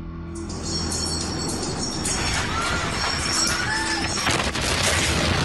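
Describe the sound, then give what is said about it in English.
A huge explosion at one of the largest, busiest ports on the Eastern Mediterranean comes across as a loud, dense roar and rumble that fills the whole stretch without a break, with harsh crashing noise throughout. “The ground shakes. Smoke and dust fill the air while debris and ash fall from the sky. An explosion in one of the largest and busiest ports on the Eastern”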